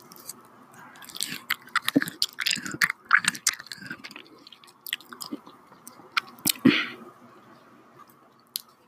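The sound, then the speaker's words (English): A dog chews and eats a piece of fruit, making many irregular wet crunching and squishing bites, loud and close, with brief pauses between bursts of chewing. “I think she knows this fruit. Not gonna eat it. Oh no, she's eating it.”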